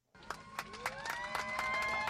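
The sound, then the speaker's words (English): Cheers from a crowd at Atlanta's Hartsfield-Jackson airport as AirTran's last Boeing 717 flight takes off for Tampa. Voices whoop and shout, swelling in quickly after a short silent start and staying loud to the end. “Cheers erupted as AirTran's Boeing 717 took off Sunday night from Atlanta's Hartsfield-Jackson International Airport, bound for Tampa.”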